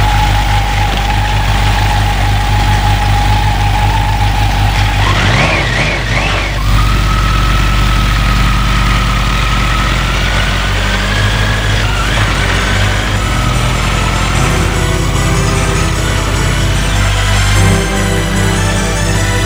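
A car engine pulls away and keeps driving out of town, a steady low rumble with a sustained whining tone layered over it for the whole stretch, no voices.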